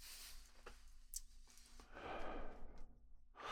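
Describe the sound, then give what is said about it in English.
A soft, breathy exhale of smoke after a pull on a cannabis joint of Purple Gushers strain. It is a faint, airy rush with a few quieter breath sounds around it and no speech. “you really get the gassy exhale when you're smoking the joint”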